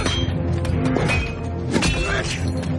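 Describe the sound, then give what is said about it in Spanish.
Axes chop at a stone wall, giving a few sharp cracking and clinking blows over a dense, noisy clatter, with voices mixed in. “Dan hachazos a la pared.”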